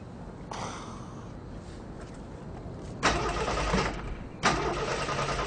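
A car engine cranks and fails to stay running: a few rough starter bursts, the later two louder and longer, each dying back into a low steady hum without catching.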